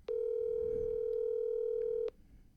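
One steady electronic ringback tone from an outgoing phone call going unanswered, sounding for about two seconds at an even level before cutting off into near quiet.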